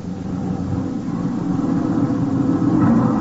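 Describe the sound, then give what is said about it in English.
A truck engine rumbling as it drives, a steady low drone that stays even throughout with no clear stop. “Hey, stop this lousy truck for a minute.”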